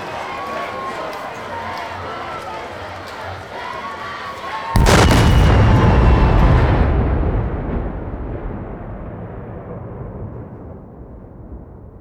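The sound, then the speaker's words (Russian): Huge fiery explosion from the tallest tower of a castle: after a steady rumbling background, a sudden loud blast erupts, roaring for a couple of seconds before slowly fading over several more. “После огромного огненного всполоха, бабахнувшего со стороны самой высокой башни Хогвартса громче сотни громов.”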